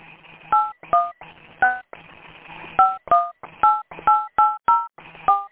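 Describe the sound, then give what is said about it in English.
Touch-tone keypad beeps as a 10-digit phone number is entered into a voicemail system: ten short dual-tone presses in an uneven rhythm, loud and clear over a faint voice underneath. “To leave a message for someone, enter their 10-digit phone number now.”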